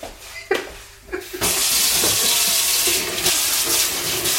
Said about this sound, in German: Waschen wir uns die Hände.